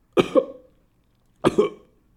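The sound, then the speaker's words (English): Two small coughs from a worker at a concession stand, each a short double pulse, separated by about a second of silence. “I give a little cough, right?”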